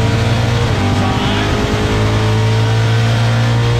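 A motorcycle engine roars at high revs as the rider wheelies and runs up through the gears. It makes a loud, steady droning whine with strong low harmonics and a brief shift in tone partway through.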